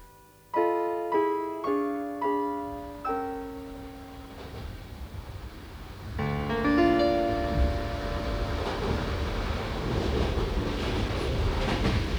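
A train pulls into the station at Weimar: a few ringing tones sound first, then a rolling rail rumble sets in with tonal squeals over it and continues to the end.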